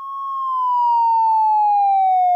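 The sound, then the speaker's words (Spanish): Police siren sounding at a gas station in the United States: a single loud, sustained wail that slowly falls in pitch, with no other sounds. “Cuando están a punto de retirarse del lugar, suena una sirena.”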